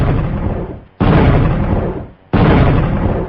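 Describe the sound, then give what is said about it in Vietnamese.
Three loud explosive booms from a lit signal firecracker bursting in the sky. Each is a sharp, broad blast that decays over about a second, spaced roughly a second apart. “lấy trong bọc ra một cái pháo lệnh, châm lửa đốt. Pháo lệnh giọt lên không trung, nổ liên tiếp 3 tiếng.”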